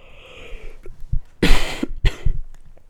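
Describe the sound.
Harsh coughing from a person with a hoarse, worn-out voice: two loud, rough coughs after a few softer throat sounds, with no talking.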